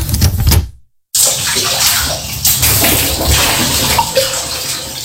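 Water splashes and sloshes steadily as someone bathes, with a short silent pause near the start before the pouring and splashing resume.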